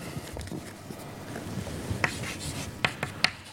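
Faint scratchy strokes of writing notes on a board during a lecture, a run of soft rubbing marks followed by a few sharper, louder strokes near the end.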